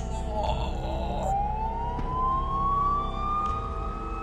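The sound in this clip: An emergency siren from police and ambulance vehicles arriving at a crime scene wails in one long tone that climbs slowly in pitch over a steady low background rumble.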